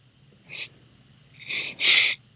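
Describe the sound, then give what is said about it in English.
Deep breathing by a person gathering their thoughts, heard as three breathy bursts, a short one followed by two longer, louder ones back to back, with no talking. “I'm taking a deep breath because I'm really trying to gather on this.”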